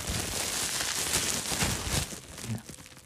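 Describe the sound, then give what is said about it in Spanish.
A wrapper is crumpled for ASMR, giving dense, continuous crinkling and crackling that holds steady and then softens toward the end. “elige algo para arrugar, porque claro, Mira, aquí tengo el envoltorio de.”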